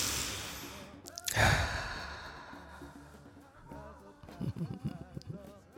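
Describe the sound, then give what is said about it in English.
A deep breath drawn in and let out, heard as a single loud, breathy rush that swells and then fades, followed by quieter, softer sounds. “I need to take a breath. You take a breath too. Come on, let's do it together.”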